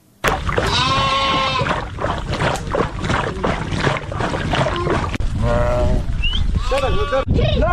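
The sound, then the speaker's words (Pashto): A nomads' herd of sheep and goats bleats, with many loud overlapping bleats in bursts against a busy, continuous background. “دا راپور یې پرې چمتو کړی چې د کوچیانو د رمې په غږ سره پیلېږي”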